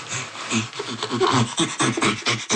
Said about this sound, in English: The panting comes from this inhalation and exhalation. And while inhaling, producing the sound, and while exhaling, producing the sound.